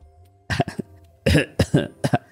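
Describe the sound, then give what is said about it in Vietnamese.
Dry coughs from an elderly grandfather outside at night, a short series of rough throat bursts, some coming in quick pairs, over a faint low hum. “Ông nội tối bên ngoài ho khan, nhẹ giọng nói,”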